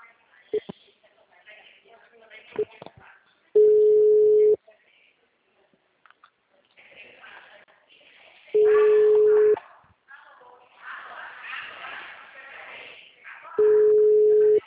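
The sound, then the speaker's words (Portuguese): Ringback tone of an outgoing phone call that goes unanswered: three steady, one-second tones spaced about five seconds apart, with people talking in between. “Tô ligando pra Rosana, não tá atendendo.”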